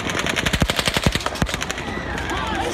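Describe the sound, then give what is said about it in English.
Automatic firearm gunfire from the Route 91 shooting, captured on police audio: a fast burst of many sharp, loud shots, then a noisy, echoing tail. “16910 means we got shots fired at 415 ASO. Route 91 sounded like an automatic firearm.”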